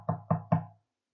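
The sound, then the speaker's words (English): Three knocks on a door, low and solid, evenly spaced and heard alone with nothing after them. “Three times, Peter's trying to figure out what this means, and there's a knock on the door.”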